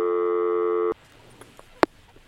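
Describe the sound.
A telephone ringback tone plays as a call is placed: one steady, buzzy tone lasting about a second that cuts off abruptly. Quiet line noise follows, with a few faint ticks and then a single sharp click.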